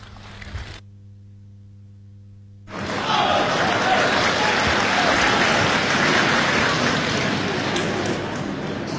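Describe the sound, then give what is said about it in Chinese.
Applause from a live audience at a Beijing crosstalk comedy show. It starts abruptly after a few seconds of near silence and a steady tone, then holds dense and loud to the end. “谢谢，谢谢，谢谢现场所有热情的观众，谢谢您这么稀稀拉拉的掌声，谢谢大家。”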